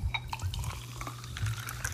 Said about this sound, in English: I'm getting a little topo refill here.